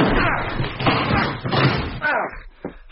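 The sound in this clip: A door is kicked in: heavy slamming thuds and crashing impacts over dense, continuous clattering noise, with a few sharper bangs standing out through the three seconds.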